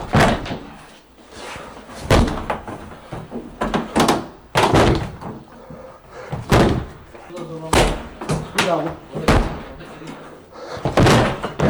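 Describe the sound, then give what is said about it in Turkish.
A locked terrace door is forced open with shoulder barges and kicks: many loud, sharp slams and heavy thuds land at irregular intervals while people talk and shout throughout. “kapıyı omuz ve tekmelerle kırdı”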